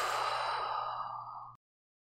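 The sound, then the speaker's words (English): A slow, deep breath taken during a guided meditation: one long, soft, airy rush lasting about a second and a half, steady and then cut off into silence. “Take an inhale and an exhale.”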